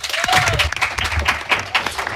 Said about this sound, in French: Alors viens avec nous. On peut l'applaudir.